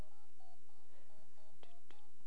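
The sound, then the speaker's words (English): Telephone keypad dialing: a faint series of short electronic beeps pressed one after another at an uneven pace, each a brief tone over a quiet hiss. “It's ringing. It's ringing. It's ringing. Oh, emergency. Emergency. I'm dialing.”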